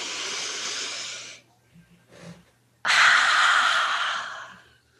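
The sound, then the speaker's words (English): A deep breath taken slowly: two long, airy breath sounds, the first fading away and the second, after a short quiet gap with a faint sound in it, louder and fuller before tailing off. “So take a deep breath.”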